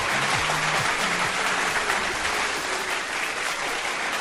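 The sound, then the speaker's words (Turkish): An applause sound effect plays for a host's birthday, loud and dense, with many hands clapping in an unbroken, even roar that holds steady from start to finish. “Bu arada benim de bugün doğum günüm efendim. Kendime bir alkış göndereyim artık yani. Hak ettim herhalde.”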